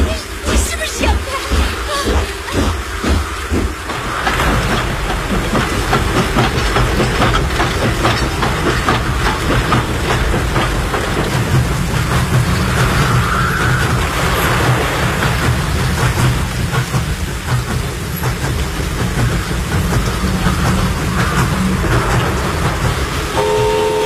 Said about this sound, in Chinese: 车终于顺利通过了，路基和铁轨都完好无损